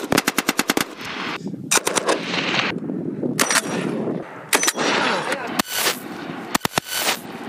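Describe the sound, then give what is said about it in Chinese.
Sniper rifles, sniper grenade launchers and rifles firing together during a counterterror sweep through a mountain valley: loud, rapid bursts of many sharp shots alternate with dense rumbling gunfire, with brief gaps between volleys. “各火力单元密切配合，狙击枪、狙击榴弹发射器、步枪等多型火器协同实施打击。”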